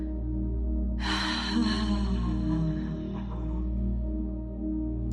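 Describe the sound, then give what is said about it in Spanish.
A long breath exhaled through the mouth after a nasal inhale during a guided breathing exercise: a breathy rush that starts abruptly and fades over a couple of seconds above a steady low hum. “Inhala por la nariz de nuevo y exhala por la boca.”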